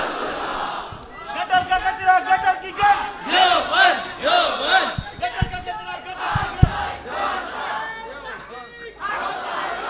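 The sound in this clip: A crowd shouts the response to a Nara-e-Risalat slogan call in loud, repeated bursts of massed voices, rising and falling in waves with a few sharp peaks.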